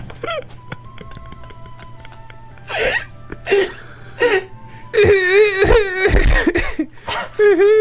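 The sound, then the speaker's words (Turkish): A person crying and sobbing, with short choked whimpers that build into longer, wavering wails with shaky pitch. A steady low hum runs beneath the crying. “Ağlama, beni de ağlatacaksın.”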